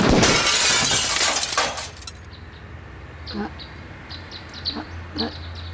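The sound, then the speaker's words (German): Kitchen window glass shattered by a gunshot bursts loudly and breaks up over about two seconds, then quiet follows with a few short, high chirps. “wir haben vorbeigeschossen und die Küchenfenster ermordet”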